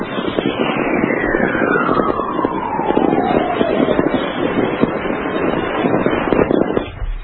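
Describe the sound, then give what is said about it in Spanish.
Magnetic storm chorus picked up by a natural radio recording in Reno: dense, steady crackling static with a single whistling tone gliding smoothly downward in pitch over several seconds. “esta vez obtenida en Reno, y se puede decir que son coros de una tormenta magnética, porque ni más ni menos así sonaría un viento solar de 44 kilohercios.”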